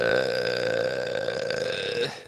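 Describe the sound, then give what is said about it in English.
A long, loud burp rumbles on for about two seconds with a steady, buzzy tone, then cuts off abruptly. “Wow. Quite the burp.”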